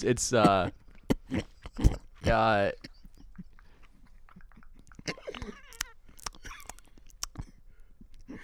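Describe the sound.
Wet chewing and mouth clicks from someone eating potato salad close to the microphone, ASMR-style. Two short voiced sounds come first, followed by many soft, scattered smacks and crunchy clicks at a low level.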